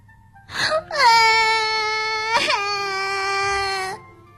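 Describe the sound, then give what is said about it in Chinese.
A child cries: a short whimper, then two long, high, sustained wails. The second wail breaks in with a sharp catch before it trails off. “杰奇忍不住终于哭了出来”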